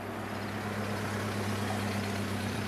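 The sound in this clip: A car engine idles after the car pulls up by the roadside, a steady low rumbling hum with a constant pitch and no change in level, with no other sounds over it.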